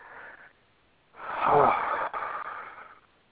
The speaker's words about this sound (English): Why are you exhaling like that? What's wrong?